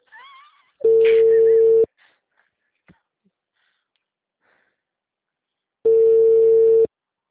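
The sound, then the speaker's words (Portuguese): Ringback tone of an outgoing phone call: two loud, steady buzzing tones, each about a second long, separated by a long silence. “Já pego o script que agora eu já vou fazer a ligação com ela.”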